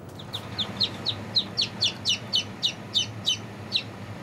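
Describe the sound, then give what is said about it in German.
Newly hatched chicks, a few of them freshly out of the egg and tired, peep in a steady, evenly spaced series of many high, thin chirps over a low background rumble. “Jetzt sind die Kleinen dran. Auch frisch geschlüpfte Küken zählen mit.”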